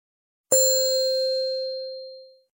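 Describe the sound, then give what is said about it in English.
Signal of an old lever-operated elevator with a gate, one bell-like ding that rings out as a steady clear tone and slowly fades over about two seconds. “A buzzer rings. He pushes the lever, opens the gate.”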